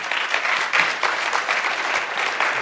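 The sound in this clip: An audience claps steadily to welcome a guest up on stage. The applause is dense and even, with a flurry of many hands throughout and no voices.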